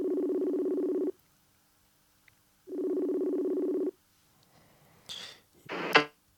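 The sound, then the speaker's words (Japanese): A mobile phone's ringback tone plays over speakerphone: two buzzing tones of about a second each, separated by a gap of silence. Brief rustling handling noises follow. “携帯で出る出ないかもしんないけど出るかなスピーカーにしてみよう出るかなさすがに出ねえか”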